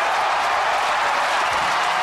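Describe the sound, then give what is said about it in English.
A baseball stadium crowd cheers and applauds a record-breaking home run, producing a loud, steady roar of mixed clapping and voices. “A lot of people cheering there, but some people in baseball not even at the time.”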